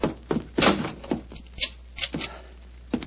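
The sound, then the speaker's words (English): A door is closed and locked with a string of irregular wooden clunks and sharp clicks, moderately loud and heard alone. “Follow me. Lock the door behind you.”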